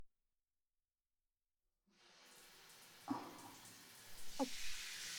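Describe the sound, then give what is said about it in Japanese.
Shower water rinses a scalp during a head spa shampoo. After a silent opening, a soft, steady spray hiss begins, broken by a few brief splashier bursts, and stays quiet throughout. “最初にシャワーで軽く頭皮の汚れをきれいにさせていただきますね。”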